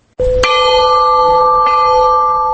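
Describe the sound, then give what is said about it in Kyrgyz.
A memorial peace bell rings in Osh city to honour victims of deadly clashes. One loud clanging strike opens into a long, steady, humming ring with rich sustained overtones that carries on to the end. “Курман болгондорду эскерип Ош шаарында тынчтык коңгуроосу орнотулду.”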